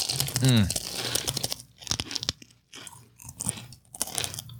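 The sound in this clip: Crisp crunching and chewing of Wendy's Baconator-flavored Pringles chips, with crinkling and tearing of packaging in sharp bursts, while people talk and react.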